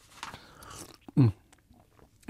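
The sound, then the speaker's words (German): A single brief sip from a personal cup, one short slurping burst in the middle of an otherwise quiet stretch. “Na, dann können wir ja noch mal einen Schluck trinken. Sie aus Ihrer offiziellen, ich aus meiner persönlichen Tasse.”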